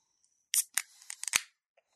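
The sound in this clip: A can of strong, very pale 11.5% beer cracks open with a sharp snap, followed by a second of short hissing and crackling bursts, quiet and alone.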